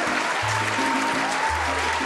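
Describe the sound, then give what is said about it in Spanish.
Applause from an audience being thanked for its support: a dense, steady patter of clapping that stays even in loudness throughout, with low sustained tones underneath. “Los aplausos para ustedes.”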